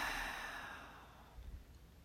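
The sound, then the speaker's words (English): A deep breath exhaled: one long, soft, airy breath that starts at its strongest and slowly fades over about two seconds, faint and alone. “Sit tight, take a deep breath, exhale,”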